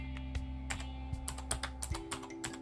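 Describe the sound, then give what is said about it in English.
Typing on a computer keyboard, entering a search to update Arch Linux: many quick, light keystrokes in an uneven patter, faint over a steady low hum. “For example, how you learn is you type in update Arch Linux.”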